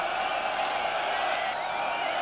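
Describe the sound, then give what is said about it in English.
Applause and cheering from a concert crowd for the bands that played that day form a dense, steady wash of clapping and shouts that holds at an even level throughout. “let's get a round of applause for all the fucking bands that played today.”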